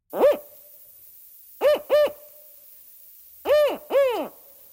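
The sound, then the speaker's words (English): Northern spotted owl, an endangered species, calling in the wild of British Columbia: five hooting notes, one alone and then two pairs, each note a short arching hoot that rises and falls in pitch. “That is the call of a northern spotted owl, an endangered species that was detected in BC's wild in 2023.”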